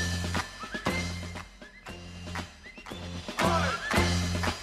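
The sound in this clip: Horse neighing: repeated loud whinnies with bright, quavering harmonics follow one another in quick succession, with no talk.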